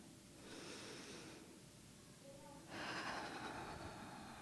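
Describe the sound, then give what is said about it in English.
A group takes a deep breath together during a sermon, a faint, airy inhale followed by a longer, slightly louder breathy exhale, with no talking. “So before I start, I invite you to take a deep breath with me.”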